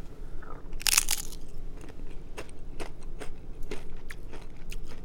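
Crisp crunch of a taco chip bitten while tasting a pineapple-and-bacon salsa dip: one short, bright burst near the start, then a few faint clicks over low, steady background noise.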